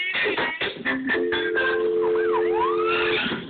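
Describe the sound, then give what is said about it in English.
Emergency vehicle siren during a police pursuit: short choppy bursts give way to a loud steady electronic tone, with wailing notes sweeping up and down above it. “When you hear the emergency sirens behind you, pull over.”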